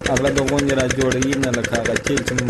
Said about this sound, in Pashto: عزت الله د کندهار په ډن ولسوالۍ کې خپل څلور جریبه د غنمو کښت د جنراتور په وسیله اوبه کوي.